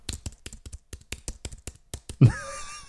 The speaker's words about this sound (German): Warte, ich tippe sie kurz ein.